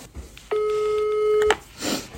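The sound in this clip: A ringback tone from a phone call to someone who doesn't pick up: one steady, loud tone lasting about a second, framed by soft clicks and followed by a short noisy rustle.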